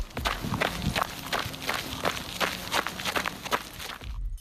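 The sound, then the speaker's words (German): Footsteps of someone jogging on a gravel path: a quick, steady series of crunching steps, many in a row at an even running pace, with no voices. “Das klang irgendwie so knusprig, als würde jemand über einen Schotterweg laufen. Ist da vielleicht jemand am Joggen? Ganz genau.”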